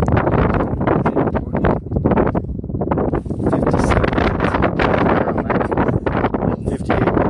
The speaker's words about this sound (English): Oh, dude, the wind.